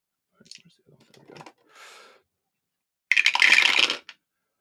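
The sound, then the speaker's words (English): Dice being rolled for a 5d8 damage roll in a tabletop role-playing game: a few scattered light clicks and a short rustle, then a loud, dense clattering rattle lasting about a second. “Let me get my dice.”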